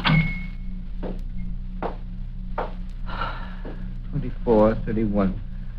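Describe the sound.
A door closing in Scrooge's counting-house office at Christmas: a few soft thuds spaced over several seconds, followed by people talking.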